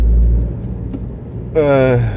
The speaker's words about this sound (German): Heute mal wieder wie gewohnt aus dem Auto.